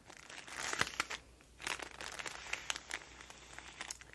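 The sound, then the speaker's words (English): Many crinkles of cute stationery packaging being handled, with soft, uneven bursts of crackling plastic and paper throughout, some louder clusters, and no voice. “So darling, more delicious crinkles.”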